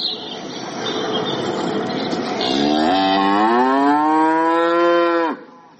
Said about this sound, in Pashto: او تور لشم غټي غټي غواوې تر سترګو کېږي دا غواوې د عادي کلیوالو غو سره فرق لري